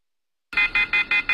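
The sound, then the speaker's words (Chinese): Urgent alarm from a networked smoke alarm system in a community smart-management hall. After silence, five loud, high-pitched beeps sound in a quick, evenly spaced rhythm. “上午10点，顺义区胜利街道智慧化大厅中传来了一阵急促的警报声。”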